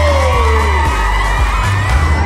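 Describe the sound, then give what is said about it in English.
A school crowd in a gym cheers, whoops and yells as the team captain runs in through a tunnel of dancers. Loud, steady shouting is broken by higher gliding whoops. “As Reed runs into the gym through the tunnel of dancers, cheered on by our entire school that adores him, he seems miles away.”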